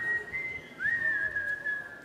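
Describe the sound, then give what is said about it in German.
Cheerful whistling by someone walking away: a faint tune of a few held notes with a short break midway, over soft background noise. “steckte die 2 Taler wieder in die Tasche und ging lustig pfeifend davon.”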